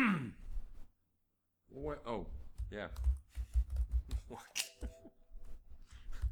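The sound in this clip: Typing on a computer keyboard: a dense run of rapid, uneven keystroke clicks fills the second half, after a breathy gasp and a short pause at the start.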